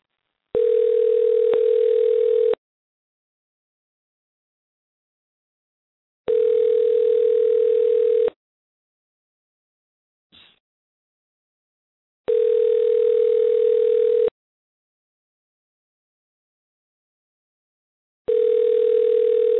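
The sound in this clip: Ringback tone of an unanswered telephone call: four long, steady electronic buzzes separated by silent gaps, with the last one cut off.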